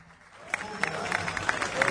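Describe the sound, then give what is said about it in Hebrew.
Audience applause for a singer at a live concert, starting quiet and swelling into steady, dense clapping mixed with crowd voices. “הרבה מחיאות כפיים לבן התורה המקסים והזמר האדיר הזה.”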